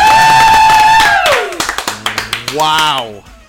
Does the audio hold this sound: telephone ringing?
no